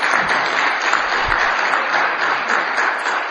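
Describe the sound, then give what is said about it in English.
Sustained applause from a church audience congratulating a recently married couple and an expecting couple, a steady, full clapping wash that holds at an even loudness throughout without voices. “So congratulations to you guys. Let's give them a hand.”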